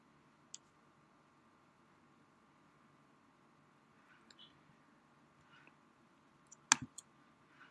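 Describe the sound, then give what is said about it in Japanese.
A few faint, sharp computer mouse clicks on a quiet background with a steady low hum: an isolated click early, a soft one in the middle, then a short cluster of clicks near the end. “こちらのクリエイターツールをクリックしてください。で、こちらのアナリティクスをクリックしてください。”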